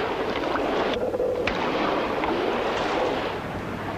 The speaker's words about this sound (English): At the stern, Dingbat and Van Weyden lower a boat.